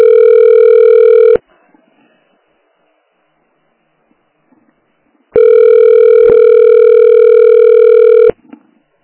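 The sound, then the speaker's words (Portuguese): A telephone line tone plays while calling a busy extension: a loud, steady electronic hum sounds for over a second, stops for about four seconds of near silence, then returns for roughly three seconds before cutting off. “Afonso, é que o ramal tá ocupado. Vou tentar de novo, tá?”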